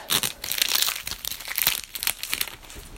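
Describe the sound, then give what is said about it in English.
Crinkling and tearing of a trading card booster pack wrapper being ripped open, a loud, continuous run of crisp crackles and crunches for about three seconds with no talk. “Put these cards aside and open up our second and last pack.”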